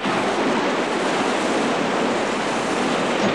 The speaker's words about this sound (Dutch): de zee die wordt wel erg ruw